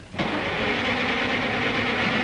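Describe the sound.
A car engine cranks but fails to start, in an older petrol car with a carburetor. A steady, rough whirring churn begins abruptly after a short quiet moment and continues unchanged to the end.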